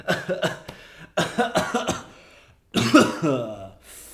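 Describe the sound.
Coughing and throat clearing from a male voice, with rough, gravelly bursts in three short clusters and the last clearing drawn out and more voiced.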